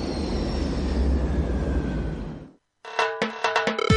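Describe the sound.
A loud, steady jet engine roar from an airplane rumbles for about two and a half seconds, then cuts off abruptly. After a brief silence, music begins.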